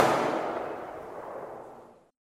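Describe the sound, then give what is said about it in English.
A rifle volley fired by the Princess Patricia's Canadian Light Infantry as a military funeral salute for a decorated soldier: one broad, sharp blast that decays slowly and smoothly into silence. “Tommy Prince of the Ojibwe Nation, the Princess Patricia's Canadian Light Infantry are honored to say farewell to one of our own. Present! Fire!”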